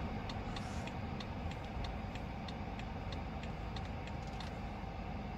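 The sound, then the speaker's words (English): Continuous rumbling engine and road noise from a manual-gearbox car pulling out of a petrol station, a dense, steady low drone with no voices. “So I'll be driving out of this petrol station.”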